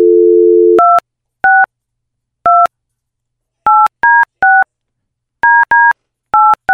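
Telephone being dialed on an office line: a steady dial tone cuts off into about ten loud touch-tone beeps, tapped in short irregular clusters with gaps between.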